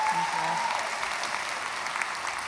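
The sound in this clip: An audience at a church gathering applauds to welcome a speaker to the stage, with dense, steady clapping that lasts throughout.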